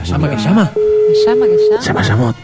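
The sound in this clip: A telephone line tone as a call is placed: one steady, even mid-pitched tone lasting about a second, with people talking before and after it.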